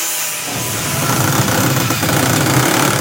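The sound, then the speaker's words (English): A machine sands plywood-like desk boards, producing a steady, loud, rasping grind that holds without pause. “These sandwich machines can create a range of materials from a leather-like fabric to these desk boards that are just like plywood. They are sanded”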